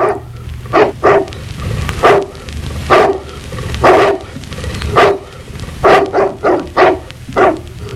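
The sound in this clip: A small dog barks many times in sharp, high yips. The barks are spaced irregularly at first, then come in a quicker run toward the end.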